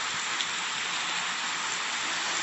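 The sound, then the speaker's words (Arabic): Rain falls as a steady, dense hiss of drops hitting a surface. It is the calming kind of rain sound played for relaxation, even and unbroken throughout with no voices. “هذا ريلاكس رين، تهدئة بواسطة المطر. زي ما تسمعين بنسمع أصوات مطر الآن.”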